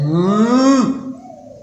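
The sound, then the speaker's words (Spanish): A cow moos once in a long, loud call whose pitch rises slightly, then drops into a fainter, lower tail that trails away. “Entonces, ¿qué es este ruido de ovejas y vacas que está por acá?”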